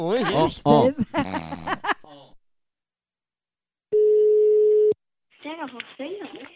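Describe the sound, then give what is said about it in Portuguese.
A phone line rings once with a steady, mid-pitched ringback tone lasting about a second as a call is placed, set between stretches of conversation. “vou ligar pra Valdete”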